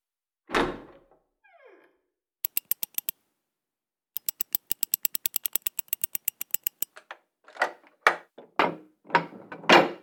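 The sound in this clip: A safe being opened: one soft thump, then two runs of rapid, crisp mechanical clicks, followed by a few heavy thunks and clunks of the door.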